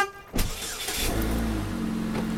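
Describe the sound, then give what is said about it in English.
Car engine hums steadily during a drive on the road, a low continuous rumble with a faint sustained whine running through it, no voices. “and driving with her husband to Gilroy.”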